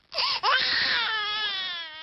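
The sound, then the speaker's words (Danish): An electronic baby simulator doll cries like an infant, a loud, high, sustained wail that breaks once briefly near the start, then carries on with a slightly wavering pitch and slowly fades. “vi slutter med den her babylyd.”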